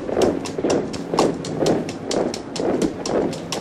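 Horses of a cavalry squadron setting off at a trot, their hooves clip-clopping in a quick, steady, repeating rhythm throughout.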